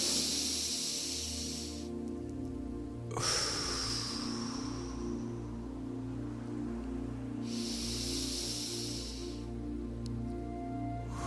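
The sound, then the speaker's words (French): Slow, deep breaths are taken in and out during a relaxation exercise. Three drawn-out airy breaths come with long pauses between them, over a faint steady hum. “Prenez trois grandes respirations.”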